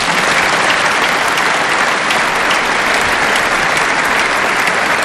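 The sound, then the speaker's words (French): Applause from a large Christian crowd, some 35,000 people, cheering the pope: loud, dense, steady clapping that fills the whole stretch without pause. “le peuple chrétien qui applaudit son pasteur”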